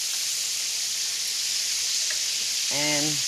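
Chicken frying in oil gives a steady, dense sizzle that hisses evenly through the whole clip with no breaks.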